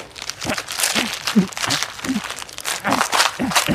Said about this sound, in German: Sorry, aber wieso habt ihr jetzt das Buch zerrissen?